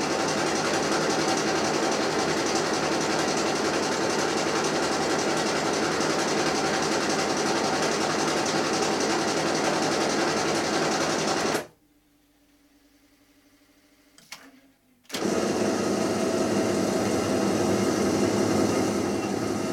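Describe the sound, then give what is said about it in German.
A printing press runs in a print shop with a loud, steady mechanical roar and dense rattling texture. It cuts out for a few seconds midway, leaving near silence with a faint low hum, then starts up again. “Das ist eine richtige Höllenmaschine. Eine Maschine d'enfer. C'est beau ça.”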